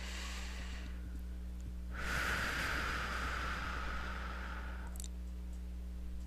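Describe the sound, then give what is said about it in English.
A single slow, deep breath forms a soft airy hiss that swells and lasts about three seconds, alone over a steady low hum. “Nice deep breath.”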